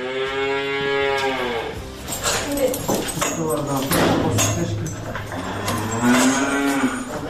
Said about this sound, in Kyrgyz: Так, вот эти у нас коровы, Анжела и Туча, они у нас очень с характера такие, не принимают чужих людей.